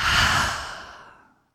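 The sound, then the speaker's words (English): A single open-mouthed exhale during a guided breathing exercise, a full breathy rush that tapers off into silence in about a second and a half. “Let's take a full breath in through the nose. open the mouth and exhale.”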